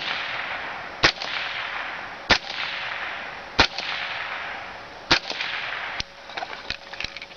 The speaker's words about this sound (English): Next, he screws on his silencer. Here the gun is silenced.